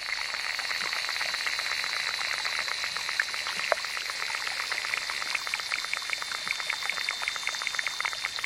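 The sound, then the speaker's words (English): Underwater insects in a small New Mexican pond, picked up by a hydrophone, make a dense, continuous crackle of tiny clicks and ticks over a steady, thin, high-pitched whine. The texture stays even throughout. “Recording artist David Dunn didn't expect much when he first plunged his hydrophone into a small New Mexican pond. But he found that underwater insects make an astonishing array of sounds.”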